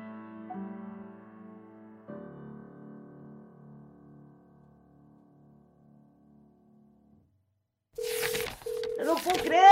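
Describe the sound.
Telephone tones from a radio station phone: a steady mid-pitched beep broken by short gaps, under a voice. A fading tonal chord and a stretch of silence come before it.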